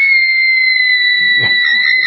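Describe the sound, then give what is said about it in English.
A young girl screams in the background, a loud, sustained, shrill cry held at a steady pitch for about two seconds, with a brief low rumble of noise about midway through. “That's my daughter screaming back there. That's what that is.”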